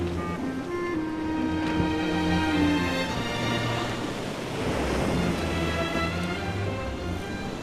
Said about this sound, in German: Bald war das offene Meer erreicht.